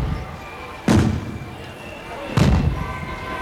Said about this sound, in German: Böllerschüsse.